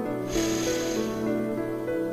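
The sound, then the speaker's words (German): A deep inhale through the nose: one long, breathy draw lasting about a second, set over soft, steady sustained tones. “Schließe jetzt deine Augen und atme durch die Nase tief ein”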